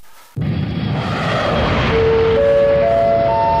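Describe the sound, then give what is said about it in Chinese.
A loud jet aircraft roar at Beijing Capital International Airport in Shunyi district begins abruptly after a quieter moment and holds steady and powerful, with high, thin turbine whines emerging toward the end. “这是哪儿啊？观众朋友们能猜出来吗？”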